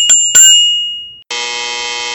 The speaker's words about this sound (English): The bell means the bill was still alive.